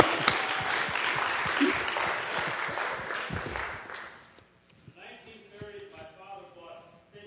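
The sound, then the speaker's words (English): Audience applause for a performer at a live show in Carlisle: dense, steady clapping for about four seconds that fades as a man begins talking. “All right, give him a hand.”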